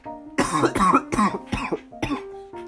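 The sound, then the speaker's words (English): Several harsh coughs from one person in quick succession, each a short rough burst, fairly loud and with no talk around them. “these are like perfectly timed coughs too. I'm so sorry, but like I've just noticed that I start coughing”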